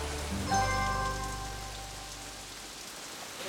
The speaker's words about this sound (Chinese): 下雨了，下雨了，下雨了。